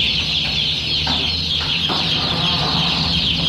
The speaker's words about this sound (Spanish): El sonido de las granjas de pollos en Europa no volvió a ser igual